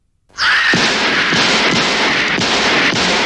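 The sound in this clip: Gunshots from a horror film. After an abrupt start, a rapid series of loud, heavy reports blurs into a continuous roaring wash of noise.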